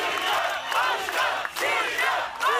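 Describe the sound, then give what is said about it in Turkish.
A crowd fills the streets of Bilecik celebrating local election results, with loud, continuous chanting and cheering voices swelling and dipping in rhythmic waves. “Bilecikliler seçim sonuçlarını sokaklarda coşkuyla kutladı.”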